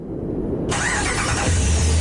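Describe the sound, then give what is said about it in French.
A Ram 1500 pickup truck engine catches and roars into life, a sudden loud surge of broad mechanical noise over a low, steady rumble that keeps going to the end. “Le Ram 1500. Pas juste un camion, c'est une légende sur roues”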